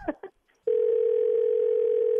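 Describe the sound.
A telephone line tone while calling someone back. A couple of brief faint sounds come first, then a steady, single-pitched tone holds unbroken to the end.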